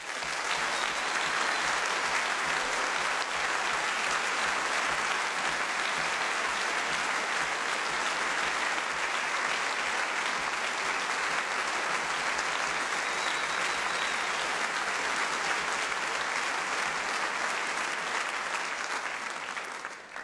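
Applause from a big-band jazz concert audience welcoming the conductor, a dense, steady wash of loud clapping that holds for the whole twenty seconds before easing at the end.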